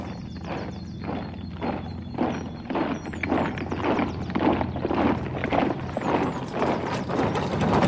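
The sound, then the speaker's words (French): Horses' hooves clip-clop as they pull a carriage, a steady run of many rhythmic hoofbeats over a continuous low rumble of wheels, with no voices. “Fouette, brave homme. Fouette tes chevaux.”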